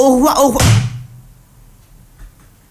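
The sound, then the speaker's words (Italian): A hotel room door is slammed shut with a single heavy thud just after a voice speaks, followed by near silence. “Dopo un attimo di sbigottimento e la porta chiusa in faccia”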